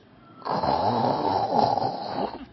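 One long, rasping snore from a man sleeping in a dark cave, a steady throaty drone of about two seconds heard alone.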